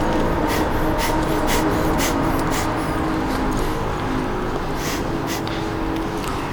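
Rapid breathing during a breathing-exercise warm-up: many quick, forceful breaths in a steady, even rhythm, with a continuous low background hum and no talking.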